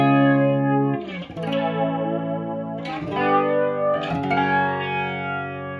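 Electric guitar run through a chorus effect pedal, its shimmering, slightly detuned chords ringing out with three distinct strummed attacks and long sustained decays in between.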